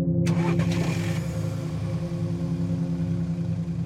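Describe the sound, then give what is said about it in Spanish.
A taxi's engine starts: a brief rough burst of cranking and catching after a moment of quiet, quickly settling into a steady, low, rumbling idle that runs on alone. “Encendí el motor de mi vehículo.”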